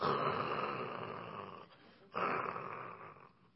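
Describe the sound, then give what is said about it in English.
A voice imitates a man snoring with his head down on a desk: two long, rasping snore breaths separated by a brief pause. “there's a guy that has his head down on a desk, and he is snoring. He's like,”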